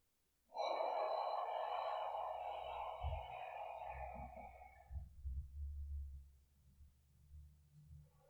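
One long, deliberate breath during meditation, a soft, airy rush lasting about four seconds, followed by faint, low thumps.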